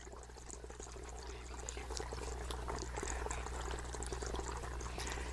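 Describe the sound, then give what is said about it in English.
Water flows steadily in the background as a soft, continuous rushing wash that stays at a low, even level for the whole stretch, with no voices over it. “hopefully you can hear in the background just a little bit the sound of the water.”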